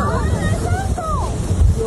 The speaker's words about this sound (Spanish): Esto fue el vendaval el día de ayer. Fuerte.